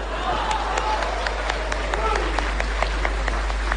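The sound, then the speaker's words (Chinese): Scattered clapping from a small audience after a traditional opera singing performance: sharp separate claps over a steady low hum, fairly faint. “我一唱完你们就鼓掌啊”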